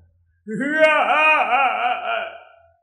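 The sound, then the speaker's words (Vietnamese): A loud wailing cry rises into one sustained, wavering voiced wail of about two seconds with a trembling pitch, then fades away. “Tiếng khóc lớn như sấm, như sóng biển vỗ bờ đá”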